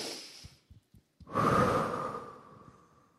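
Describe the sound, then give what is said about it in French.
A person breathes in, then blows out hard in one long, forceful exhale that slowly tails off. A soft breath and a few faint small mouth or nose sounds come before it, with no talking. “Inspire et souffle.”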